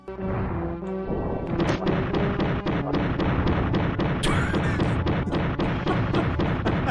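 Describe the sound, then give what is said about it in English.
Many rapid pistol gunshots from a Luger in an adventure video game cut down an enemy, with sharp, loud cracks in a fast, steady rhythm that continue almost the whole clip. “here's a sound of somebody getting bodied by the pistol.”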